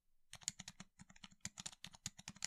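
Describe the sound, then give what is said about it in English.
Typing on a newly bought computer keyboard: many quick, crisp key clicks tapped at an uneven rhythm, fairly quiet, with no voices. “And then the keyboard I bought, that sounds like this.”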